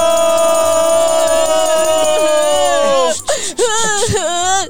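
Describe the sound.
A woman cries in a children's storytelling show, with a long, wavering, high-pitched wail that gives way to broken, hiccuping sobs near the end.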